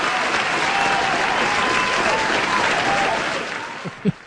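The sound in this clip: A studio audience applauds in a thick, continuous burst of clapping that holds steady, then thins out and fades toward the end, where a couple of brief low thumps break through.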